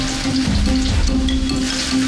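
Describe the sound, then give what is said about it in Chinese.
Ginger fries in a blend of lard and vegetable oil heated to moderate temperature, giving a steady, fairly loud crackling sizzle over a low constant hum. “把猪油跟那个素油混为一体，放入， 油烧到四成热，放入姜、”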